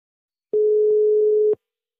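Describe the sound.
A telephone ringing tone sounds while a call is placed: one steady, mid-pitched tone lasting about a second, with silence before and after it.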